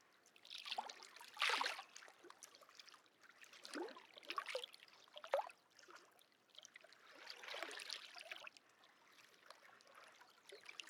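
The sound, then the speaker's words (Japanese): Quiet, gentle water, soft like stirring rather than breaking waves: irregular faint swishes and trickles rise and fade in several soft surges, with no voices. “静かで優しい音。どちらかというと水をかき混ぜるような音に近いかもしれませんね。”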